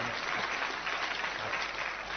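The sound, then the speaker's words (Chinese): Audience applause breaks out at a comedy sketch performance, dense and continuous for about two seconds at an even level. “念到此处听一听，下面可能有掌声 啊。这要掌声呢，”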